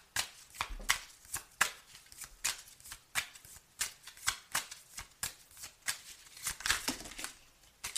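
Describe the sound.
Playing cards being dealt one after another make a long run of crisp, papery flicks and snaps in a fairly even rhythm, quiet and with no talk.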